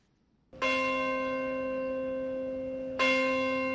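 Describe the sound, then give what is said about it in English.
A church bell rings at St. Paul's Chapel in New York during a September 11 anniversary memorial: two loud strikes, the second about two and a half seconds after the first, each leaving a long, sustained, rich tone that fades slowly. “the Bell of Hope rang out at St. Paul's Chapel in New York Wednesday morning to mark the moment at 8:46 local time when the first of two planes hit the World Trade Center Twin Towers.”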